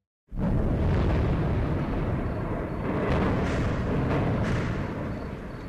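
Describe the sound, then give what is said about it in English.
Explosions from NATO airstrikes over Tripoli, Libya, early in the morning: a continuous loud roaring rumble with a few heavier booms surging out of it, and no talking. “The sounds there of NATO airstrikes over Tripoli early this morning, local time”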